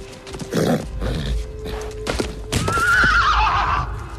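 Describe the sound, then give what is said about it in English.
A horse whinnies and stamps in a corral. Dull hoof thuds and scuffs come first, then a long, loud, wavering neigh fills the second half. “Even so, the horse pulls him, bent almost double, across the corral.”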